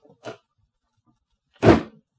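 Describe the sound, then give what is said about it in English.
A door slammed shut hard: one loud, heavy slam with a short decay, preceded by a much fainter knock. “She slammed the door nearly as hard as she'd slapped my face.”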